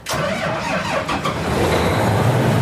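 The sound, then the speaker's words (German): Engine of a combine harvester on a farm, running while the machine is checked over before harvest season; it starts abruptly and holds a loud, steady, rumbling roar throughout. “Der Mähdrescher auf dem Hof von Sebastian Fegler in Züssow soll in die Erntesaison starten. Dafür wird die Maschine noch einmal durchgecheckt.”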